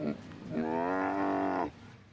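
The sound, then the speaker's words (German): A Siberian tiger in a zoo enclosure calls at feeding time with one drawn-out, moaning cry of about a second, rich in harmonics and fairly loud, with a few faint sounds just before it. “Ruckzuck sind alle da, 6 sibirische Tiger.”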